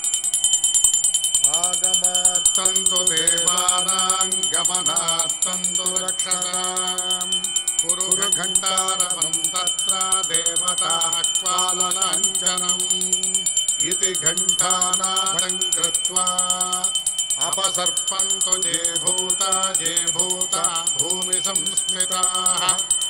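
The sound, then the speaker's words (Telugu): A hand bell is rung steadily at the start of a Hindu puja, its bright metallic ringing continuing without pause throughout, layered with tuneful tonal sounds. “ముందుగా గంట వాయించండి”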